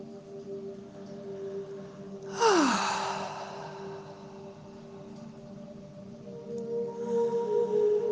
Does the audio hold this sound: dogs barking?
no